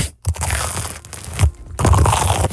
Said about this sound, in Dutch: Sorry, mijn microfoon ging in mijn broodje.